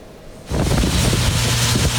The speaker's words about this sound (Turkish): Vidanjör içindeki pisliği döküm yapıyor.